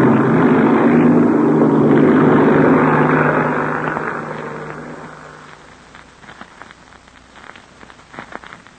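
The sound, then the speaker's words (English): An airplane taxiing out and taking off to the north, heard as a loud, steady engine roar for about four seconds that then fades away, leaving faint scattered crackles. “I'm going to taxi out a ways, Chuck, and then take off to the north.”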